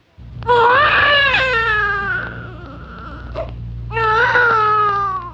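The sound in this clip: A frightened young girl wails and cries in a tantrum: a long, loud, high sobbing cry, a brief quieter break, then a second drawn-out wail.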